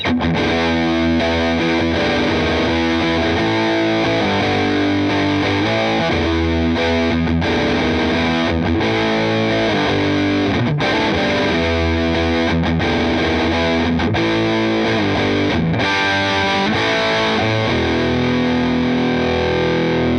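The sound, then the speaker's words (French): Electric guitar through an overdrive pedal with gain turned fully up: a thick, muddy, fuzz-edged distorted tone played as continuous chords and riffs, loud and sustained throughout with no voices. “Quand on a augmenté le gain, on entend bien le côté un petit peu muddy, hein, et presque un peu fuzz du caractère orange. Je le mets à donf et c'est parti.”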